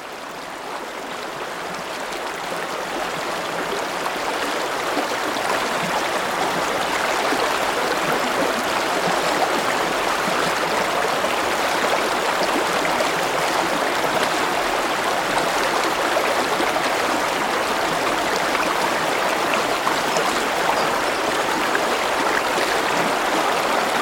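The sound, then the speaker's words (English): Moving water from a stream gives a continuous, loud, even rushing that swells slightly over the first few seconds and then holds steady, with no voices. “you hear the sound of moving water, because that is my third sound. It's the sound of moving water.”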